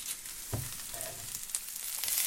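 Onion frying in a pan with a continuous crackling sizzle at steady loudness, broken early on by a single low knock.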